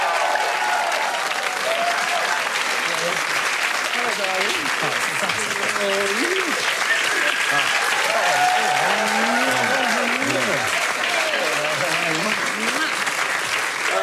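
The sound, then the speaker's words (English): An audience applauds as cricketer Merv Hughes is welcomed to the stage, sustained, loud clapping that holds steady throughout, with voices and cheers rising over it at moments. “Can we put our hands together and welcome to the stage cricketing legend Merv Hughes?”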